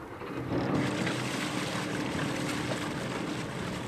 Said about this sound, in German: Denn der Motor des Tochterbootes springt nicht gleich beim ersten Mal an.